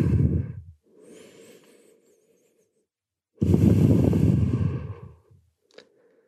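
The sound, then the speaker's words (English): Slow breathing from someone lying flat on a mat after a yoga sequence: a few deep, loud breaths, with a long, noisy exhale and a softer breath between them. “Let's just lie flat and breathe.”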